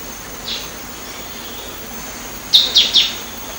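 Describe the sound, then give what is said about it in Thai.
A green-tailed sunbird calls in the mountain forest of Doi Inthanon: one faint high chirp, then three sharp, bright chirps in quick succession over a quiet hiss of background. “นกกินปลีหางยาวเขียวเปรียบเสมือนอัญมณีบนดอยอินทนนท์ที่จะกระโดดอวดสีสวยไปมาตามดอกไม้เพื่อกินน้ำ”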